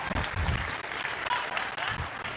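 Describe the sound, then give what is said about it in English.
A crowd claps for a group of men at a Bible teaching. The applause is loud, fast and continuous, with a thick wash of overlapping hand claps that never drops away. “Okay, clap it up for these men. Clap it up for these men.”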